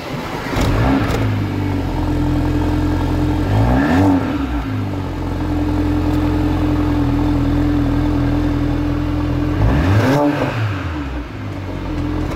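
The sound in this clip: A fire-red car's engine idles with a smooth, fairly modest tone and is revved a few times, each rev briefly swinging in pitch before settling back to a steady idle.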